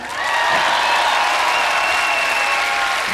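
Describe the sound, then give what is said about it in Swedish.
Warm applause from a rock concert audience at Cirkus in Stockholm greets a band member being introduced, swelling in quickly to a loud, dense, steady roar of clapping that holds to the end. “en varm applåd för King Tabbe!”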